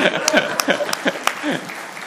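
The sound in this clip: Audience applause for a worship guitarist who broke a string, a few sharp scattered claps mixed with voices.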